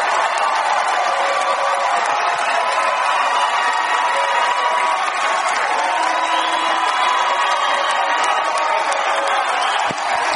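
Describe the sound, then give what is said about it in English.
A late-night talk show studio audience cheers wildly, with fans in the show's t-shirts going crazy. A loud, unbroken roar of cheering and whooping runs throughout at steady volume. “Right now, they're just panning the audience and just showing a lot of people with Lopez Tonight t-shirts on going crazy.”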